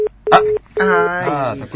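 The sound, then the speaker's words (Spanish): Telephone redialing tones: a few short, steady electronic beeps are followed by a longer tone, with someone talking over the later part. “Tiene otra oportunidad. Vamos al remarcado. Vamos al remarcado.”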